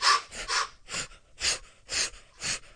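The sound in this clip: Forceful, rhythmic exhales from a morning breathing exercise, breathed out as raised arms bring the elbows down. A steady series of about six sharp, breathy bursts, one roughly every half second, with no talking.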